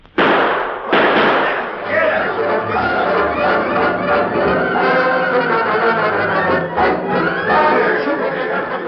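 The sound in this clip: Gunshots from a radio-drama gunfight with John Wesley Hardin: two sharp, loud bangs burst out at the very start, followed by voices and busy commotion.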